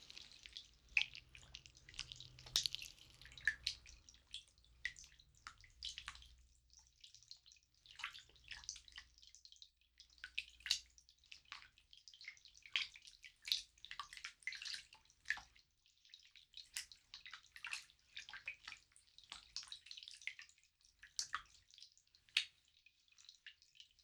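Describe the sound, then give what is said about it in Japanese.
Hot water splashes and trickles while gel is rinsed off. A faint, irregular patter of many small drips and splashes continues throughout, with no talking. “ではこちらもお湯でジェルを落としていきます。”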